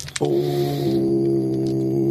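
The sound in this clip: A person imitates a foghorn during a tabletop dice game, holding a loud, steady, low buzzing voiced tone with rich harmonics that starts abruptly and continues unbroken for about two seconds.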